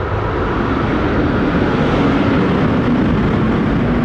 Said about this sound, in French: Ah, par contre, ils sont toujours précis. C'est 8h32, donc c'est le décollage de 8h30.